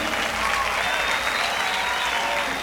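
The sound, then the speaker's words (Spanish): Loud audience applause, a thick, unbroken wash of many hands clapping that stays at full strength from start to finish. “¡Fuerte aplauso!”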